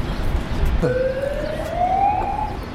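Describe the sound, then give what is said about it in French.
An emergency siren wails at a street protest, starting partway through as a clear tone that climbs steadily in pitch over a constant background rumble of traffic and crowd noise. “On entend les bruits de sirènes.”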